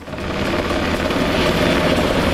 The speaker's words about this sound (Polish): Policyjny śmigłowiec Black Hawk co kilka minut nabiera wody z pobliskiego zalewu i zrzuca ładunek nad płonącym obszarem.